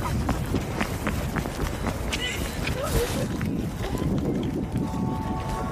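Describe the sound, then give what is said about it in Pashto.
Quick running footsteps as two people hurry across an open square, many rapid, even steps pattering steadily throughout with voices alongside. “اندری او مرحریتا چټک ګامونه اخلي”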